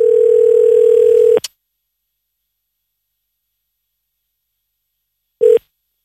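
A telephone dial tone holds steady and loud as a call is placed, then cuts off abruptly; after a few seconds of silence, one short burst of the same tone sounds.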